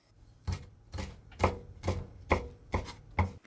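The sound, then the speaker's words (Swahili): A knife chops prawns into one-centimetre pieces with seven sharp, evenly spaced chops that ring out clearly on their own against near silence. “Katakata kamba kwa urefu wa sentimita 1 kiukubwa na waweke chumvi kiasi na pilipili manga.”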